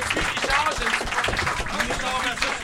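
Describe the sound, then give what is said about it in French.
Standing ovation from an audience: a rush of clapping with shouting and cheering voices layered over it, staying loud and busy throughout. “C'est la plus belle ovation debout de ma carrière”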